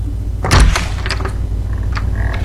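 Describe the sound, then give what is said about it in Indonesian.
An unlocked door at home is opened: a solid thump and knock near the start, then a few faint clicks and light rattles as it swings, with no talk. “Buka saja pintunya. Tidak dikunci kok.”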